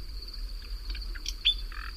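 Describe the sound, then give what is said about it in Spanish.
Nightingale singing at night in a recently burned area: a few faint, short chirps and trilled notes over a steady high whine and a low hum. “Este pájaro, por cierto, perdona, sí, está cantando en un lugar que ayer, anteayer, ardió.”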